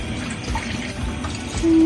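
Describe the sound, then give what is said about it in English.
Chicken broth pours into a pan of pasta sauce that already holds lemon juice, giving a brief, steady watery splashing that grows louder at the end. “Now you can add your chicken broth. I'm not going to do it all though.”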